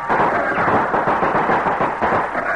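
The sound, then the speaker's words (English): Musket volley fire in a dramatized siege of a frontier fort, a dense continuous roar of gunfire crackle that holds steady for nearly three seconds without pauses. “You women down there, get ready to reload these muskets. Here you are. We're going to work fast. Ready? Fire!”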